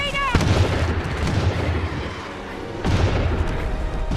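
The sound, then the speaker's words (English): Heavy bowgun firing in a video game, with two loud, deep booming shots separated by a rumbling lull. “Dude, that's a heavy bow gun.”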